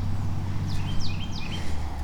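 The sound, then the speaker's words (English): A bird at a creek gives three sharp, high calls in quick succession. The calls sound fairly faint over a steady low rumble of background noise. “Squawk, squawk, angry squawk behind me.”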